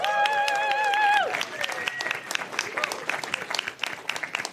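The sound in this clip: An audience welcomes a performer at a Science Week event with applause, opening with a loud, sustained cheer over the clapping, then settling into thinner, scattered claps.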